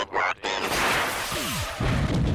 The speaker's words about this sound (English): Meatwad is going to throw Shake in the air and then send some missiles at him and explode him.